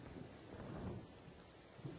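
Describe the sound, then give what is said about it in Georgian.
Rain falls with thunder, a faint, low rumbling wash under a steady patter, swelling slightly midway and again briefly at the very end. “რატომ? და რა დროს წვიმა?”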